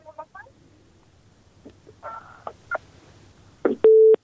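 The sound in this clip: Telephone dialing tones sound while a listener is being called: a few short, clipped tone bursts, then a longer steady tone at the end.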